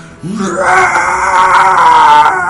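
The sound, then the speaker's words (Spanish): A human voice imitating a dragon's scream: a loud, strained, sustained wail held for about two seconds after a short low onset, with no other sounds. “Tengo un grito de dragón porque, porque me lo pide el cuerpo.”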